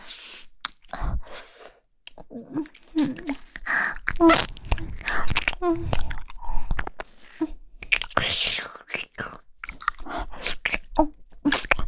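Chewing and eating food, with many crisp crunchy bites and wet, squishy mouth noises following one another in an irregular rhythm, fairly close and soft overall.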